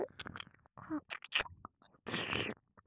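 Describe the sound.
Wet chewing and smacking mouth sounds of someone eating, in several short bursts separated by pauses, soft to moderate, with a breathy whisper-like hiss.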